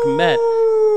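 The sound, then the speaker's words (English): A coyote howl sound effect plays at a baseball game after a home run: a sustained, steady-pitched tone that holds through the second, with a brief voice speaking over its start. “I think that's the Arizona Coyotes howl they play after the Bulls, but we're going to borrow it.”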